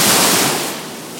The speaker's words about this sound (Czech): kousek před ní vytryskl z ničeho nic obrovský gejzír vody.